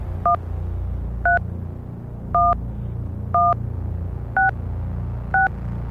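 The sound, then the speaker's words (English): Telephone keypad DTMF dial tones: six short, evenly spaced beeps, each a pair of steady tones sounding together, heard over a low, continuous rumble and hum. “when you hit a button, it plays two tones. It's kind of like a grid.”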